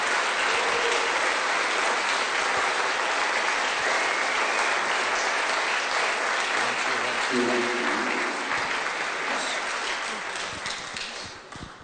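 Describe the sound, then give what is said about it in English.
A standing church audience applauds at a Sunday morning service as two speakers come up, sustained dense clapping that holds steady for most of its length and then tapers off near the end. “Just put your hands together as him and Betsy come up and share.”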